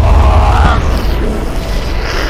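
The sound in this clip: A missile explosion sound effect from a cyberpunk tabletop role-playing game scene where missiles strike a train: a loud, deep rumbling boom that roars steadily for about two seconds with a gritty, crackling texture.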